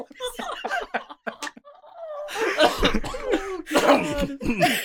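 Harsh throat-clearing coughs: a cluster of rough, noisy bursts in quick succession, with a few brief breathy vocal sounds just before them.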